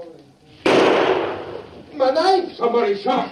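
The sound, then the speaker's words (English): A single gunshot fired from a south wall: one loud, sharp burst with a long, fading tail, followed by a man talking. “Somebody shot. It came from the south wall.”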